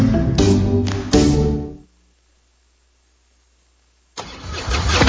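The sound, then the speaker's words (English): A popular American motorcycle engine rumbles loudly with a few deep, throaty revs, then cuts out to silence for about two seconds before roaring back to life at full volume. “This is the sound of a popular American motorcycle.”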